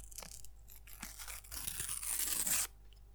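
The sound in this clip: A trading card pack is torn open from the side. Quiet scratchy tearing comes first in short bursts, then a longer continuous rip grows louder and stops abruptly near the end.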